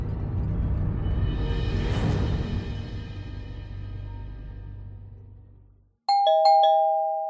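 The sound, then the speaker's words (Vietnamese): A doorbell chimes two ringing ding-dong tones at the end, after a long swell of low rumbling noise fades away to silence. “Đột nhiên tiếng chuông cửa vang lên.”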